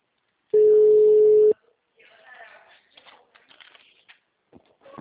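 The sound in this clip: A single steady telephone line tone after a dropped call, lasting about a second, followed by faint rustling and scattered soft sounds.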